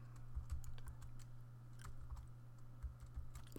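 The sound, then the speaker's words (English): Typing a name on a computer keyboard, with many quick, light key clicks in short bursts over a faint steady hum. “So let's just go ahead and type in Charles.”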